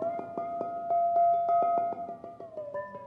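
A waterphone struck with a stick gives many quick, evenly spaced metallic hits, each one feeding a steady, ringing hum that holds through the whole passage.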